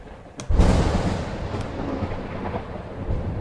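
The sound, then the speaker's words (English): Thunder rolls in with a sudden deep boom, then settles into a long, bassy, sustained rumble with a few faint crackles running through it. “With these canceling headphones on, this thunder is bassy.”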